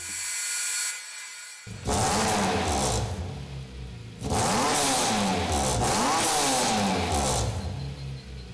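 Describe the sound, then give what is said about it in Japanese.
Race-prepared BMW E46 M3 built for the Super Taikyu ST3 class revs hard in two long, loud bursts, its engine note sweeping up and down, after a quieter steady tone. “レースのために生まれ変わった BMWE46M3 スーパー耐久の ST3 クラスに参戦した完全特別仕様の1台”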